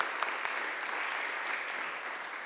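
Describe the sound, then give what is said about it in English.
An audience claps to welcome a speaker to the front, a steady, even wash of applause that holds at a moderate level throughout with no voices standing out. “So can we put our hands together for Jill and welcome her to the front?”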